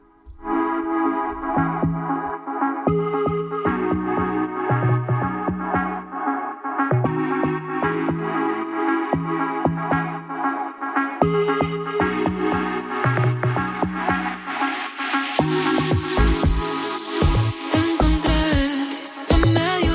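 Upbeat pop music from a newly released song by a singer from Benidorm: a steady beat, pulsing bass and bright layered tones, loud throughout, growing fuller and brighter toward the end.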